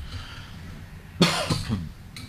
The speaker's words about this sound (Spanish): Me deja en evidencia que estoy tosiendo.